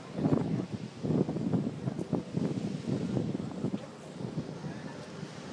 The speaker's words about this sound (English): if you can hear the wind in the background, just let that wind drift you into a deeper state of relaxation.